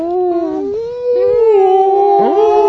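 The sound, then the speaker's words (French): A human voice imitates a whale call, a loud, continuous moaning tone that slides down and up in pitch, heard alone. “Je suis une baleine. C'était une baleine.”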